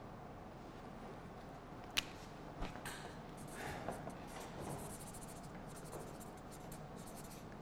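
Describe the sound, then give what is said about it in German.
A pen writes quickly on paper, making faint, dry scratching strokes in an otherwise quiet setting, with one sharp tap early on. “Ganz schnell geschrieben.”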